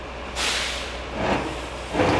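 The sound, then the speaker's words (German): Air brakes hiss in three bursts as military vehicles, an SLT heavy tractor unit and a Dingo armored vehicle, are driven into a maintenance hall, over a steady low engine rumble. “Wir sehen gerade, wie zwei Fahrzeuge in die Halle gefahren werden. Wir haben hier einmal rechts den SLT, die Zugmaschine, und links haben wir nochmal einen Dingo.”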